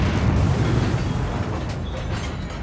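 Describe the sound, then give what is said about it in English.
A palace explodes with a loud, sustained roaring rumble of dense noise, deep and rough, slowly easing off over a few seconds. “What was that? I think it was your wish coming true. The palace has exploded!”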